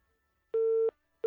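Telephone busy tone after a call was cut off: a steady mid-pitched electronic beep sounds alone, with one full tone burst and the start of a second separated by a short silence.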